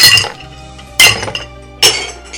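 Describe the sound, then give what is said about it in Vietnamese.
A bowl is smashed repeatedly. Three sharp, loud crashes come at roughly even intervals, and each is followed by a bright, ringing crockery clink that fades before the next strike. “Nó chỉ muốn nghe tiếng đồ vật bị đập bể. Thí dụ như tiếng chén”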